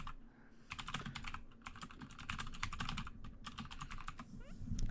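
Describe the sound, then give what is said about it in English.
Rapid typing on a computer keyboard: many crisp plastic key clicks in a dense, uneven stream, with brief pauses between bursts and no voices. “I'm gonna do it so you guys can hear me type.”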